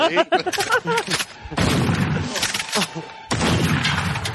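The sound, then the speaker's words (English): Gunshot sound effect, a few sharp, loud, reverberant bangs, preceded by a brief stretch of voices talking. “Jenny, I've been shot, Jenny.”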